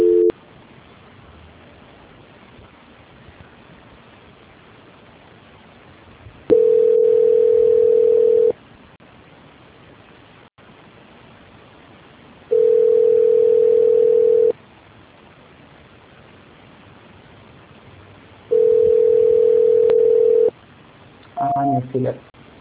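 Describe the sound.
A steady mid-pitched telephone line tone sounds during a call transfer in three separate bursts of about two seconds each, spaced by long gaps filled with a faint hiss.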